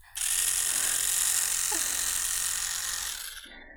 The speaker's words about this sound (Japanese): 電動歯ブラシのね、先っちょなの。